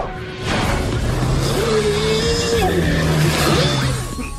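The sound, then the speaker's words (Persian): A solar-powered race car driving: a steady, loud rushing roar with a wavering tone running through it, sustained for about four seconds with no voices. “وای ماشین مسابقه خورشیدیت خیلی قویه”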